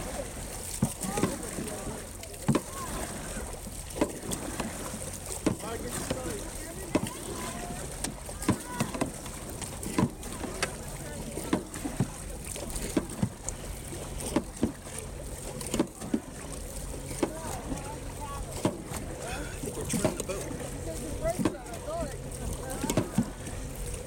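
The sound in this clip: Paddles splash in many steady, regularly spaced strokes as a crew paddles a boat together, under constant wind noise and people talking.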